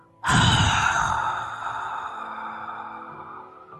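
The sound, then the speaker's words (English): A voice imitates a long exhale from inside a closed helmet. The hollow, breathy rush starts abruptly and loudly, then slowly fades over about three seconds. “from the helmet, which is a closed helm, you just hear a sound like...”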